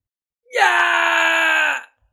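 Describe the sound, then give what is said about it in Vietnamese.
A single sustained, agonized scream from a fighter cut through the waist in a fantasy battle, loud and even for about one and a half seconds, alone. “Kim sĩ Tiểu Bằng Vương kêu thảm thiết, cả ruột gan trong cơ thể cũng chảy ra ngoài, máu tươi phun như suối.”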